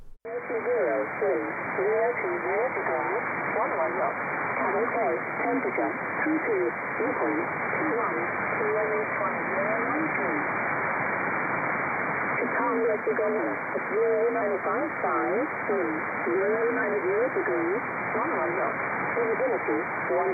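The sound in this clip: An original, unfiltered noisy radio signal carries a voice speaking through dense, constant hiss confined to a narrow band. The static stays loud and steady under the speech for the whole stretch.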